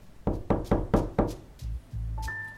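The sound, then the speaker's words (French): Knocking on a door: five sharp, firm knocks in quick, even succession, followed by a low, dull hum. “Arrivé chez Ringard, il toque. Personne.”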